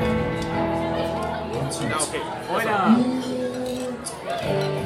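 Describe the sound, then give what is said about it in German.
Glass bottles clink together in a toast, giving bright, brief chinks amid people chattering and talking. “So, wir stoßen jetzt mal an.”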